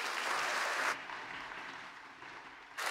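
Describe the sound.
An audience at a Pacific Baptist church service applauds to welcome a guest speaker: a faint, steady wash of clapping that softens midway, then surges again at the end.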